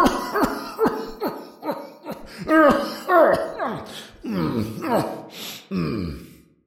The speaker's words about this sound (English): How long have you had that cough?